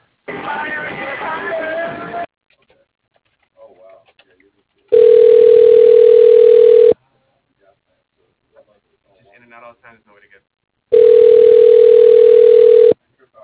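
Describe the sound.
A phone line plays its ringing tone while a call is being transferred. Two steady, loud, mid-pitched tones each last about two seconds, with several seconds of near-silence between them. A short burst of noisy sound comes before the first tone.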